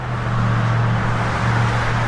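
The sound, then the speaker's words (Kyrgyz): Car traffic on the streets of Saudi Arabia hums as a steady, loud engine rumble with a low droning tone and a broad wash of road noise that stays even throughout. “Сырттан карасаңыз, Сауд Арабиянын көчөлөрүндөгү автоунаа кыймылы дүйнөнүн башка өлкөлөрүнөн дээрлик айырмасы жок. Көнүмүш унаалар, көнүмүш тоуштар.”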